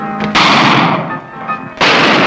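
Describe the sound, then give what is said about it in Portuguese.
Gunshots from the 1957 Mazzaropi film O Noivo da Girafa: sharp, loud cracks with a booming, noisy decay. A couple of blasts stand out, separated by a slightly quieter stretch. “Carlos troca olhares com os homens. Levanta-se e Aparício atira nele. Cambaleante, Carlos deixa a arma cair.”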